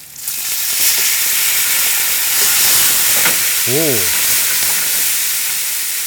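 Loud sizzling and hissing as two tablespoons of white wine hit a hot pan of roasted mackerel and new potatoes, starting abruptly and holding a steady, crackling, steamy fry until the end.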